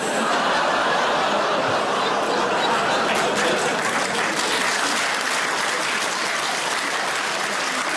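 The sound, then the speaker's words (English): Sustained applause from a comedy club audience in London: dense, even clapping that holds at a steady loudness for the full eight seconds without a break. “Really, London? Really? A round of applause?”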